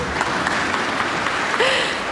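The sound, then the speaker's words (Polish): Applause for a guitar player during an orchestra session: a steady wash of many hands clapping at even loudness for about two seconds, with a brief whistling tone rising near the end. “Brawa dla mistrza gitary.”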